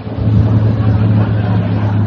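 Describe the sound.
A car on a highway gives a steady, loud, low engine drone that holds evenly for a couple of seconds, with no voices.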